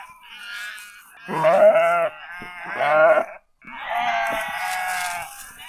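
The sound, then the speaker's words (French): A young lamb on a farm bleats loudly three times. The first two cries are short, shaky and harmonic-rich, and the third is longer and held. No voices are heard in between. “Je crois qu'il va falloir qu'on aille chercher mon petit agneau.”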